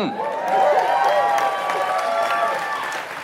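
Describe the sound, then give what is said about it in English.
Actors and audience members applaud, a steady wash of clapping with cheering voices and excited calls rising over it, holding at a fairly even level throughout. “Actors and audience members applaud.”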